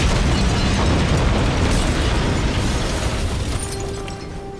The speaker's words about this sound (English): Foe Bomb Box detonates.